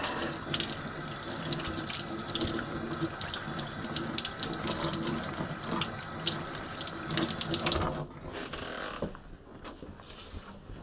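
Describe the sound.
Running water pours from a sink tap as hands are washed: a steady, loud rush for about eight seconds, then a softer, thinner flow to the end.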